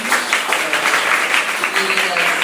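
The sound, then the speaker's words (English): Steady applause for a board: a continuous, moderately loud patter of many clapping hands that keeps a fairly even level from start to finish. “could we have an applause for the board of”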